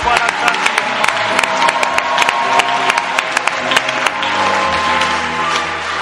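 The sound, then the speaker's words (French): Congregation applauding and cheering at a church gathering, dense steady clapping with sharp individual claps standing out, mixed with crowd noise and faint voices throughout. “Acclamons-le encore, Seigneur.”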